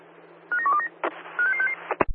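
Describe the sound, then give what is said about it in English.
An emergency phone in a toilet signalling a call with short electronic dialing beeps in two quick groups over a low steady hum, ending in a sharp click. “Emergency phone in the toilet.”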